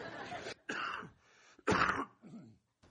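A man coughs and clears his throat because of reflux, in a few rough, raspy bursts separated by short pauses. The third burst is the loudest, and a softer throat-clearing rasp closes the run.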